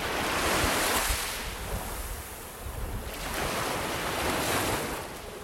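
Sea waves wash onto a shore at sunrise in a steady roar of surf with wind noise, rising and easing in broad swells.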